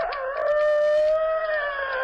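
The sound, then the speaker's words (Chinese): A person's voice imitates a rooster crowing, the call of a thief pretending to be a cockerel: one long, sustained, high, strained crow held for about two seconds, heard alone. “偷鸡的装起来了公鸡啼。”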